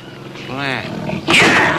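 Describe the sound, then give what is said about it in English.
A tiger roars from inside a cage in a film trailer as the cage is lifted off the ground. A throaty, harmonic growl builds, then breaks into a louder, harsher burst of roaring. “Sultan and the Rockstar is a trailer of a guy with a tiger in a cage, and it's just being lifted off the ground.”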